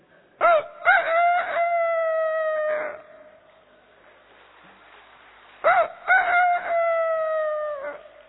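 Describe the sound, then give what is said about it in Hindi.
A human voice imitates a rooster crowing. It gives two long cock-a-doodle-doo calls separated by a pause, each opening with short choppy syllables and then stretching into a steady, held tone that drops slightly at the end. “बिल्ली को देख के मुर्गी कैसे करती है, और मुर्गी को देख के मुर्गा कैसे”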